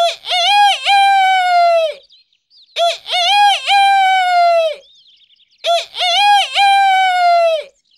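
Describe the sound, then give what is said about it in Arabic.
A rooster crows three times, each loud, drawn-out, multi-part crow lasting about two seconds and separated by short pauses, with no talk over it. “وصاح الديك ثلاث مرات”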